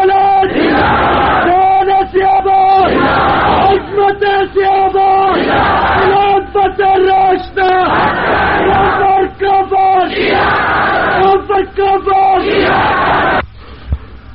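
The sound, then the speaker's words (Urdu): A large crowd of voices shouts "Allahu Akbar" in unison, answering a call for takbir at a religious gathering. Loud, chesty chanted bursts repeat several times in a steady rhythm, with brief gaps between them. “نعرہ تکبیر”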